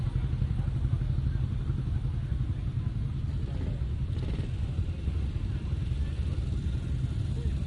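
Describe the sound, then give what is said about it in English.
British motorcycles, including Triumphs, Nortons, Matchless and AJS machines, gather in an arena, making a steady low engine rumble that holds at an even level throughout without distinct revs. “Keep them coming, folks. Come on. Let's get this arena full of bikes. PSAs, Triumphs, Nortons.”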